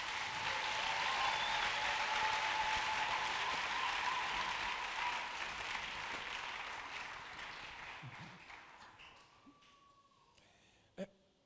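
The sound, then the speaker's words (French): Congregation at a church convention applauding and acclaiming the preacher: dense, loud applause with crowd noise that holds steady, then gradually thins and fades over the second half, ending almost silent apart from a single sharp knock. “Je refuse cette acclamation. Nakatai kushangilia.”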